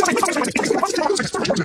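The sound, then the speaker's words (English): A radio advertisement for a home-goods sale played back at extreme speed, turned into a continuous burst of squeaky, garbled chattering voices and music lasting under two seconds. “that sound you just heard was this ad at Superloop speed.”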